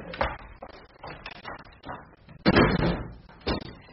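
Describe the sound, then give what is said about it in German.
Windows are being shut with several irregular thuds and clattering knocks. Two louder bangs come near the end. “Bitte schließen Sie die Fenster.”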